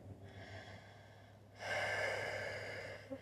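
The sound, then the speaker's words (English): A deep breath taken during a guided relaxation exercise: a soft, airy breath swells into a louder, steady rush lasting over a second, then fades, alone over a faint steady low hum. “you can take a deep breath if you want”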